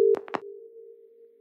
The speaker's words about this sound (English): the phone sounds like this to connect the court proceedings to the room nearby where the young woman is listening.